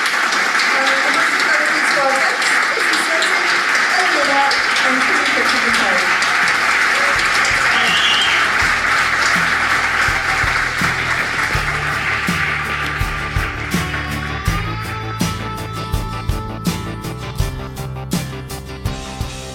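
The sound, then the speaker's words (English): Festival audience applause rises as a long, loud, steady wash of clapping, then gives way to music with regular beats. “So thank you very much for coming and being such a smashing audience. Please join me in thanking Henry and everyone at Macbeth for making this a great festival.”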